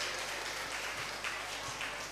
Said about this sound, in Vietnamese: Cho một tràng vỗ tay thật lớn nào.